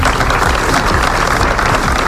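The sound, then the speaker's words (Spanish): Applause from a crowd gathered before a town hall at noon breaks a minute of silence held in solidarity with affected families and neighbours: dense, continuous clapping, loud and steady throughout. “Guardaban un minuto de silencio roto solo al final por aplausos.”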